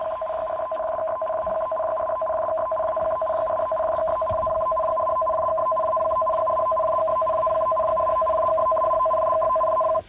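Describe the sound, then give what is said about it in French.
A tsunami alert tone on Japanese radio, broadcast after an earthquake affecting Fukushima and Ibaraki. A steady two-pitched electronic tone pulses rapidly and evenly for about ten seconds, loud and continuous. “Voilà, ça c'est le bruit d'alerte au tsunami.”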